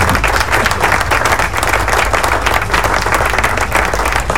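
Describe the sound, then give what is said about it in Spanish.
Applause given as a round of clapping for a listener, a dense, steady wash of many hands that holds at an even loudness for the whole stretch without breaks or audible voices. “vamos a darle un aplauso a Metal Latino”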